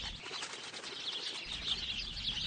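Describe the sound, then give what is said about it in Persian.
A flock of sparrows flutters among corn plants, their wings making a soft, continuous flapping rustle that stays fairly faint throughout. “دسته از گنجشکا لابلای بوته های بلال این طرف و اون طرف میپرند.”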